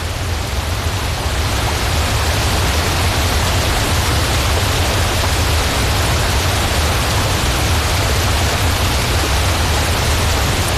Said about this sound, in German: Der Giessbach stürzt über 14 Kaskaden und eine Gesamtlänge von 500 Meter runter in Brienzer See